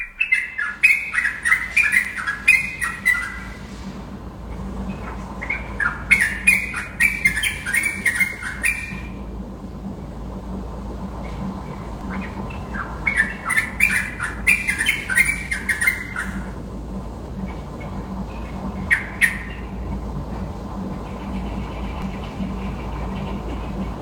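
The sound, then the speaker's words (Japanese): Birds calling at dawn around six in Kuta after a night thunderstorm, squawking and chirping in a few short bursts separated by pauses, over a steady low hum. “その時に鳴き始める鳥の声が可愛かったので録音しました。”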